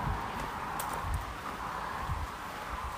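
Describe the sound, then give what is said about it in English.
Heavy rain pours down outdoors beside a main road in a partly sheltered spot, making a steady, dense hiss that runs unbroken throughout, with soft scattered thumps underneath. “I'm walking by a main road, but in some area that's kind of sheltered in a way from the rain. It's starting to chuck it down a lot.”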